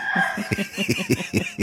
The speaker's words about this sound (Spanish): sacala esa que ya la conozco, esa gallina guacha. Esa, la piquetera.